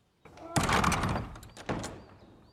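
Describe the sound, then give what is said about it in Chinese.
A door is slammed shut hard: a sharp, heavy thud followed by a second loud impact a little later, each ringing out briefly before fading. “严征明用力一摔门，将程潜关在了外头。”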